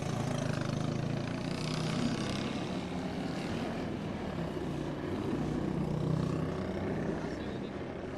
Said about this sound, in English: he rides the 49 Clubman TT winning 500cc Norton.